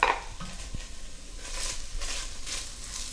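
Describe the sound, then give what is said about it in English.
Lamb and onions cook in a pan, giving a soft, steady sizzle with a sharp metallic clink of a utensil near the start and a few faint scrapes. “my lamb is looking good. I've added the onions.”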